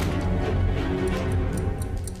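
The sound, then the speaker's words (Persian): An alarm clock built into a homemade timer device ticks with quiet, regular beats over a low background rumble. “زمان رو نگه میداره و با یه ساعت زنگدار ساخته شده.”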